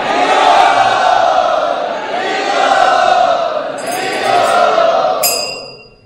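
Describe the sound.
An audience chants together to welcome a visiting spiritual speaker, many voices joined in long, sustained sung phrases that rise and settle in waves before the sound fades away at the end.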